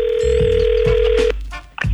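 A telephone ringing tone for an incoming call sounds as one steady, unbroken electronic tone for a little over a second, then cuts off, followed by brief soft rustling.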